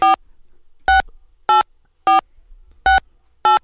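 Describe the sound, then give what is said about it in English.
Telephone keypad tones entering a six-digit PIN on a phone line: six short, bright beeps at uneven intervals, each alone against near silence. “Enter your six-digit PIN number.”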